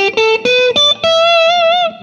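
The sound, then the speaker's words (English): An electric guitar plays through a Vox AC30 amp turned up loud, with natural amp overdrive and no distortion pedal. A few short bright notes lead into a long held note with wavering vibrato. “I use the distortion of the AC30, it's a natural thing, which... That's with no distortion on, just turned up loud.”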